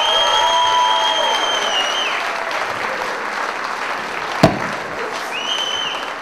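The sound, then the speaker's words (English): An audience applauds to welcome a brother-and-sister folk act onto the stage. Loud, steady clapping is sustained for several seconds and eases slightly toward the end, with one sharp knock midway through. “Put your hands together and a big welcome for Frank and Jane Cassidy.”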